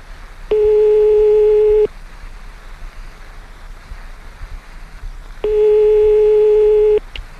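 Telephone ringback tone heard while placing a phone call: two long, steady, mid-pitched beeps, each lasting over a second, separated by a pause of a few seconds filled with faint low hiss.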